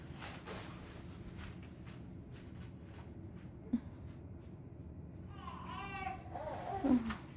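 A baby cries in short, harmonic wailing bursts that grow louder toward the end, over a faint low hum.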